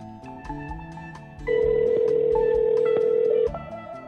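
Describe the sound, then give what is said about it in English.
A steady electronic telephone tone sounds as a call is dialed, holding one even pitch for about two seconds before stopping, over a quieter busy background. “We're dialing right now. Is the volume up on your telephone?”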